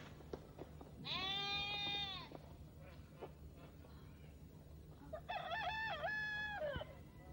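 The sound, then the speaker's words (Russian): Geese call in two drawn-out, harmonic honks, the first fairly steady and the second wavering, standing out over a low, constant background hum. “Бумбараш уходит, один из гусей клюет Бумбараша.”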